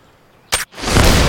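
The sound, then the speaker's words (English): A single loud gunshot cracks out sharply, followed after a brief gap by a swelling wash of broad rushing noise that holds to the end. “A shot rings out. No one knows where the shot came from.”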